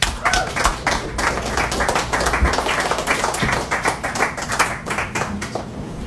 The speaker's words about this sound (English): Give yourselves a hand.